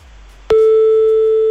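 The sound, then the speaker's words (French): A telephone ringback tone sounds while a call goes to a hotel reception. After a brief quiet start, a single steady, loud, pure tone begins abruptly and holds unbroken to the end. “à la réception, il y a le téléphone qui sonne”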